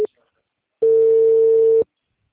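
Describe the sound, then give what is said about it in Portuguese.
Telephone line tone after a dropped call: a short blip at the start, then a single steady, loud, mid-pitched tone lasting about a second, with no talk. “a ligação caiu, ficou muda”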